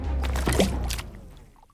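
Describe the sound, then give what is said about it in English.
A fishing line is cast into water: a short rushing burst with a watery slosh, fading out over about a second. “Stand straight, extend your arms, and cast.”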